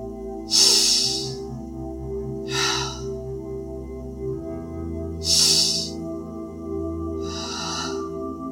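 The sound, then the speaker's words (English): Slow, deep breathing during a guided breathwork session: four long, breathy inhales and exhales at a steady, unhurried pace over a soft, sustained musical drone. “Powerful inhale. Slow exhale. Just letting it go.”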